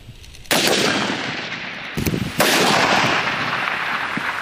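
Gunfire rings out at an army brigade's live-fire shooting drill: a sudden loud blast swells into sustained roaring noise, a cluster of quicker cracks follows, then a second heavy blast trails into continuous rumble.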